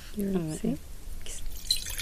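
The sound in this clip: Wine poured out onto the ground in a garden to rinse a glass: a light splashing and dripping after a speaking voice, faint and brief.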